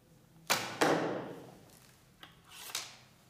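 A few arrows shot from a bow during archery practice: two loud, sharp whooshing releases in quick succession, then two fainter ones a little later, each with a brief hissing decay.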